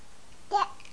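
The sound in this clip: A voice imitates a lamb's bleat with one short, brief "baa" sound, alone against near silence.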